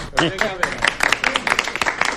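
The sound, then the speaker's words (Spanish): Brief applause at a birthday gathering: quick, scattered clapping with voices mixed in. “O sea, en la radio también se escucha este aplauso,”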